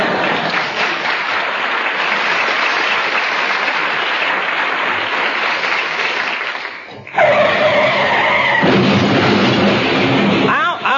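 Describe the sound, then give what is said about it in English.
Comedy sketch sound effect of a car accident: a long, loud steady roar of rushing noise gives way to a high, tonal tire squeal and then a rough burst of noise near the end. “You in trouble now. You're in a car accident.”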